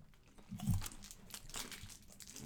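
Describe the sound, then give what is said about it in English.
Biting into a Shinshu apple flavored Kit Kat wafer bar from Korea produces a few faint, crisp crunches of wafer and chocolate with quiet crackling between them. “Yo, Shinshu Apple Kit Kat. Let's get it straight from Korea.”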